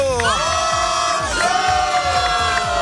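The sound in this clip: A live audience at a radio show broadcast from Ibiza cheers, shouts and whoops loudly over a steady pounding beat, with voices rising and overlapping throughout.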